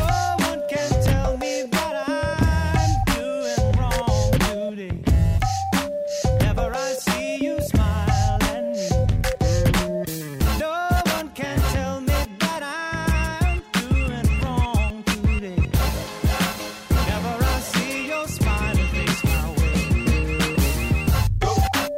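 A sample-based mashup music track plays continuously, with dense layered samples over a driving beat, constant rhythmic hits and shifting melodic fragments, loud and without pause.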